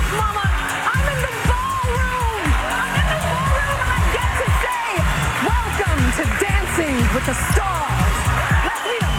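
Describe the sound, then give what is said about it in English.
Studio audience cheering at the season premiere of Dancing with the Stars in Hollywood: a dense, steady roar of many voices, shouts and applause that stays loud for the whole stretch. “listen to the crowd and remember that a capacity crowd was not on hand. And here's how it sounded.”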